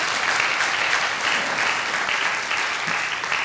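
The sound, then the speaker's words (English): An audience applauds its dads at a talk about fatherhood, a dense, even wash of many hands clapping that stays loud and continuous with no voices on top. “Let's give our dads a hand.”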